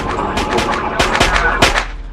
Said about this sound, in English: the boy stares at the video game where a man is shot beside a cop car.